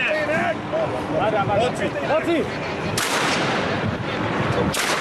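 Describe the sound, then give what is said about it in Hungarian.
Gunfire from a police officer's hunting shotgun aimed at a passerby on 23 October 2006: two loud, sharp blasts in the second half, over a steady background of crowd noise and voices. “Járókelőre lő a vadászpuskás rendőr 2006. október 23-án. A felvételen az is hallatszik, ahogy a kollégái buzdítják, lőjön tovább.”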